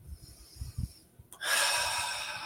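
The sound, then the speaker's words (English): A deep breath drawn in: a soft, airy rush of air that starts suddenly and holds steady for about a second after a few faint low sounds. “And everyone just taking a nice big deep breath”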